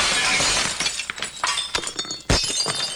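Porcelain plates smashing: a dense burst of shattering, then several sharp crashes with tinkling shards, loud and alone.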